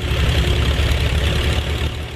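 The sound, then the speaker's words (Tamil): A tractor engine idles steadily, the tractor loaded with straw bales; a continuous low, rumbling drone stays at an even, fairly loud level throughout, with no voices. “ஆமா, ஒரு tractor நிக்குது.”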